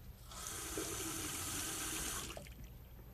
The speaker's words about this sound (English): Now, in this room, there are three places that water goes down. This sink here,